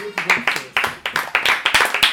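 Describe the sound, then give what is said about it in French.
Clapping from a small group of people, the hand claps falling in quick, uneven bursts that rise sharply and fade again, loud and close, with a hint of voices between them. “Ah, applaudissements.”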